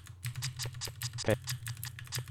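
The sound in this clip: Typing on a computer keyboard in the MS-DOS editor: a quick, uneven run of many light key clicks, some sharper than others, over a low steady hum.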